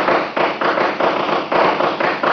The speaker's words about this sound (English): Look out. He's going to shoot.